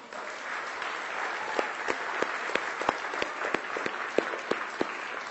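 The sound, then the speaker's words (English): A church audience applauds in a steady, dense patter of clapping, with sharper individual claps standing out throughout. “But let's give Ellen a hand.”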